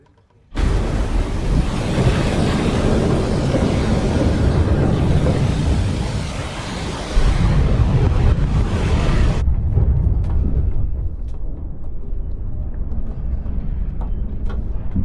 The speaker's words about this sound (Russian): Новороссийск плывет в океане, огибая большие волны. Шторм.